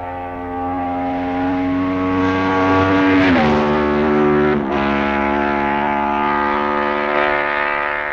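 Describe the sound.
A Paton racing motorcycle engine passes during a road race, a loud sustained harmonic whine whose pitch drops around the midpoint as it goes by, then carries on as a steady lower drone.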